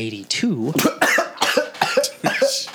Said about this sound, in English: I said I was going to cough. It was just delayed.